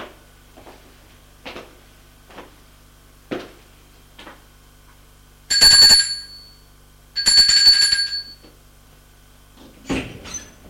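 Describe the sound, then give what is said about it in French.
A doorbell rings at a doctor's door in two bright buzzing bursts with a sustained tone, after a few soft, evenly spaced thuds. A shorter burst follows at the end. “Il va sonner à la porte du médecin.”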